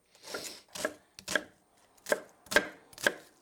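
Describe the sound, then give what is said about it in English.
A knife coarsely chops an onion in six crisp strokes, in two groups with a short pause between them, heard alone with no talk. “And now I'm just going to take an onion, and again, just coarsely chop. It doesn't have to be precise.”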